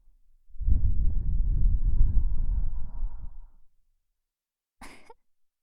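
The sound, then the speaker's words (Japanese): Breath blown close into the ear, a steady, low, rushing whoosh lasting about three seconds that fades out, then after a pause a brief soft puff. “ほら、耳に息吹きかけるぞ。”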